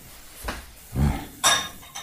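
Dishes being washed by hand in a kitchen, with plates and cutlery clattering in three short, soft bursts of knocking and clinking over a low background hiss.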